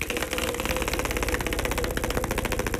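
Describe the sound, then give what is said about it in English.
A prize wheel spins in a game, its pointer ticking rapidly over the pegs in a steady, even run of clicks that lasts the whole time. “All right. It's going. That's a healthy spin too, by the way.”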